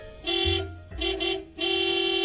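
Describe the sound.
Car horn honking at someone beside a car, a few loud, steady-pitched blasts with short gaps between them, the last held longest.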